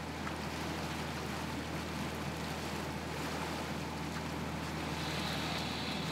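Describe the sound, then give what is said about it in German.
A push tow boat driving a barge loaded with 200 hay bales toward Süderoog produces a quiet, steady low engine drone mixed with washing water and wind noise. “Ein Schubverband auf dem Weg nach Süderoog. Die Schute ist mit 200 Ballen Heu beladen.”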